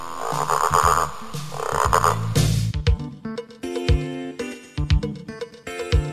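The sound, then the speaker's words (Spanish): Frog croaking: a run of many short, throaty croaks in an uneven rhythm, some louder and some quieter, with no voices. “Nací de un huevo pequeño, con una cola muy larga y dando saltos me muevo para zambullirme en el agua. La rana.”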